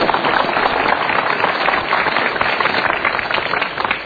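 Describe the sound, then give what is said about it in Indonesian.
Audience clapping at a motivational seminar: a thick, continuous clatter of many hands, somewhat muffled on top, keeping an even level from start to finish. “Biasanya tepuk tangan ya.”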